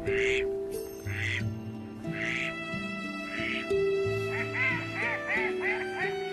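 Mallard ducks quacking on a bay estuary of salt water: many repeated nasal calls in short bursts, steady and fairly loud throughout, with no voices.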